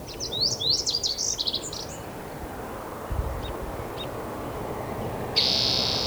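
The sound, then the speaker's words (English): A song sparrow sings a quick phrase of bright, high notes and trills, followed by a few faint, isolated chirps against a low background rumble. “Song Sparrow.”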